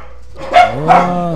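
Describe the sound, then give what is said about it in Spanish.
Dogs bark twice in quick succession, each a loud, sharp bark with a tonal, slightly whining edge, over a low steady background hum. “también estuvieron presentes los perros, como pueden escuchar.”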